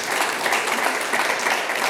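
Audience applause at an Italian gathering: a dense, steady patter of many hands clapping, fairly loud and even from start to finish, with no voices over it.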